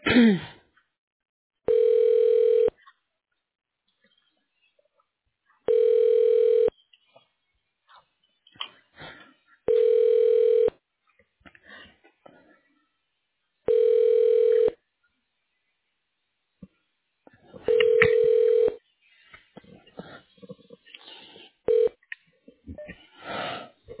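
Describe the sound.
Ringback tone on a phone line while a call is transferred to voicemail: five steady tone bursts of about one second each, spaced roughly four seconds apart, with faint clicks and line noise between them.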